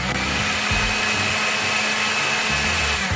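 A blender whirs steadily as it mixes honey, vanilla, cinnamon, turmeric, cornstarch and salt into a blended base. The motor drone is continuous and even for about three seconds.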